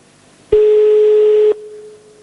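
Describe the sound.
A telephone ringback tone sounds on a call to the Naples mayor's office: one loud, steady, mid-pitched tone lasting about a second, then a faint hum at the same pitch that lingers.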